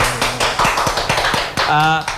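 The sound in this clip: A few sharp hand claps sound in a classroom as a visitor is introduced, spaced out unevenly rather than forming full applause, with people talking over and around them.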